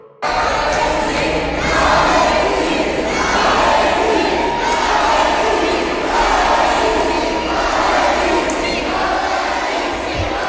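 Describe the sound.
A crowd cheers and chants for Alexis Sanchez in the hall of Montreal City Hall, a loud, continuous roar of many voices pulsing in rhythmic, repeated chant bursts.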